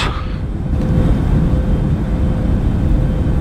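A loud, steady, low rumbling drone comes from an airplane in flight on a route from Guadalajara to Acapulco. It holds an even roar with no breaks and no talk.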